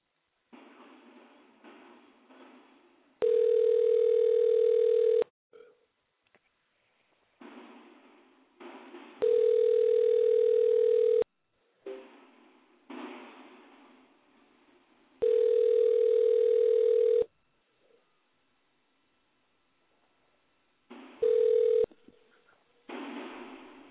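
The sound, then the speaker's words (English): Telephone line tones sound while a call is being dialed: a steady, mid-pitched tone plays in four long bursts at a regular interval, with quieter, noisy stretches between them and no talking. “We're going to try to get Vicky on the phone. Hold on. We're dialing Vicky up.”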